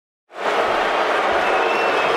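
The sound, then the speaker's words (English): Crowd cheering and applauding to welcome the 2013 NBA Draft at the Barclays Center in Brooklyn: a loud, sustained roar that swells in after a brief silence and holds steady to the end. “Good evening, and thank you for that enthusiastic Brooklyn welcome. And also welcome to the 2013 NBA Draft.”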